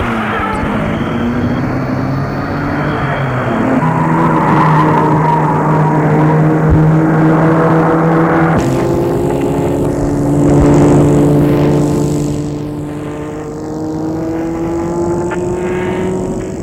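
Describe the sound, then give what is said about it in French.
A car engine runs as the car starts and drives off. The drone is loud and steady, with a clear shift in engine note partway through, and the sound eases toward the end. No voices are heard. “Le chauffeur met la voiture en route.”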